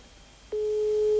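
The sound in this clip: A steady telephone line tone begins about halfway through and holds at one even pitch, loud and alone with no voices, on a call that goes unanswered.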